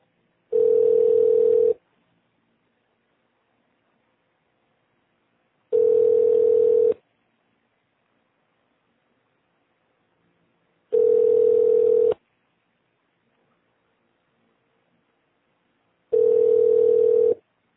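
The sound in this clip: Telephone line tone on a call to an automated extension menu: four long, steady mid-pitched beeps, evenly spaced with silent gaps, with no talking.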